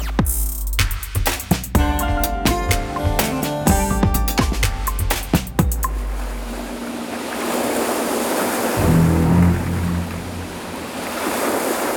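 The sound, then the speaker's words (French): Loud film-score music with low, sustained and repeated notes plays for about six seconds, then gives way to a steady wash of surf and wind that continues to the end. “On dit que c'est le premier blockbuster de l'histoire, vous avez déjà reconnu ces deux notes. Les Dents de la Mer de Steven Spielberg fête ses 50 ans.”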